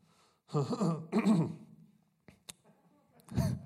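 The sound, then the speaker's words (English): Someone with a catch in their throat clears it in two rough, harsh bursts. After a pause comes a small click, then a final low clearing, all fairly faint. “Sorry, I got a little catch in my throat.”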